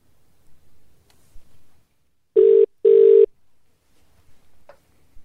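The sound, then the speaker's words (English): A telephone call being placed: two loud, mid-pitched buzzing ring tones in quick succession, with a few faint low clicks before and after. “Here we go. Dialing now.”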